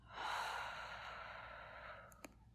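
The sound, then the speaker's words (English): One long, deep breath, soft and airy, swells early and then fades over about two seconds, followed by a couple of tiny clicks. “Just calm down and catch your breath. Take a deep breath in and out.”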